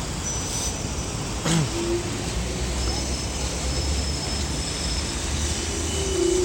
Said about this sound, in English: I'm in the traffic, I'm commuting back to work. That's all of this noise all about.